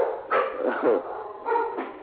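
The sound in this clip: A Labrador dog barks and yips in a few short, sharp bursts. The barks come in two pairs separated by a brief pause.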